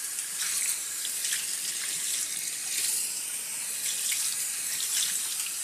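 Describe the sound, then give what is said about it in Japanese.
Tap water runs while shampoo is rinsed out of hair, making a steady, bright splashing flow. The level stays even, with no voices over it. “シャンプーはすすぎも大事なんですよ。よくゆすがないとシャンプーが残っちゃいますからね。”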